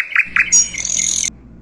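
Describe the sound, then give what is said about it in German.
A northern mockingbird sings: two quick chirps, then a harsh, buzzy, high-pitched phrase that holds for about a second before cutting off, over a low, steady hum. “Der Sensontle, auf Deutsch Spottdrossel, ist ein bezaubernder Vogel unseres Kontinents. Sein Gesang zeichnet sich durch die Vielfalt an Tönen und Melodien aus.”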